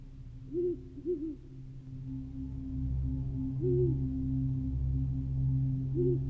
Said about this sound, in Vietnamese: Trong màn đêm đen kịt, chỉ còn lại tiếng rừng già lộc cộc và tiếng chim cú như là oan hồn đang réo gọi.